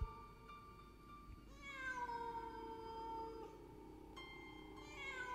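A cat standing in a far corner in the dark meows a few times, drawn-out, wavering cries with the first one sliding downward in pitch, soft and alone against a quiet background.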